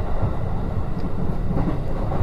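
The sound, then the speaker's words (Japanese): An electric train running on rails gives a continuous, dense rumble with steady rattling and clatter throughout, fairly loud and unbroken, with no voices. “ね、賑やかでしょ、電車の音って考えてみたら、まあ、単調なレールの音って言ってみしまえばそれまでやけど、実際にはこのレールの音はずっと微細な変化を”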